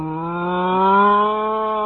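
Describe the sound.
A cow mooing while being milked on a farm: one long, steady, low-voiced moo of about two seconds with a rich harmonic tone, heard alone without talk.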